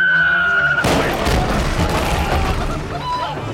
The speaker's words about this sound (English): Captain Reginald fired on us! Since the shell landed in the powder room! And she's going to explode!